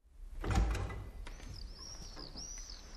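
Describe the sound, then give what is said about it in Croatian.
A door of a fisherman's small hut opening: a loud thump and rustle near the start, followed by quieter, fainter sounds. “otvori vrata i izađe iz izbe”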